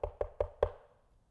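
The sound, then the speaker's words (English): Four sharp knocks on a door come in quick, evenly spaced succession, the last slightly louder, followed by quiet. “And so he goes to the prayer meeting at John Mark, and he knocks on the door.”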